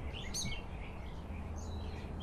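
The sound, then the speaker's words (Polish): Birds chirp faintly in midwinter in Australia, a few thin, high tweets over a steady low rumble of street noise. “posłuchajcie, jak u nas w środku zimy, no może w drugiej części zimy, ćwierkają ptaki. Słychać ptaszki?”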